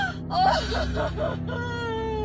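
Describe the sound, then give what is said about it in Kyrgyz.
A neighbour crying, with a few wavering, moaning wails and whimpering sobs that rise and fall in pitch over a steady low background hum. “Эне! Эне, бул ыйлап жаткан биздин кошунабыз го.”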